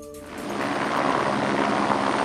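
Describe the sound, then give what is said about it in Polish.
Loud rotor roar of police Black Hawk helicopters filling an underslung bucket from a reservoir in Józefów during a forest fire. A dense, constant whir builds slightly after a brief tonal onset. “Policyjne Black Hawki oraz śmigłowce Lasów Państwowych nabierają wodę z pobliskiego zalewu w Józefowie.”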